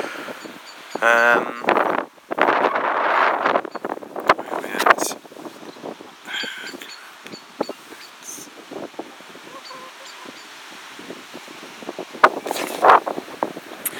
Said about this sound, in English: I don't know if you can hear, the wind's certainly picked up now.